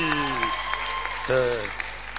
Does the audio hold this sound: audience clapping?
yes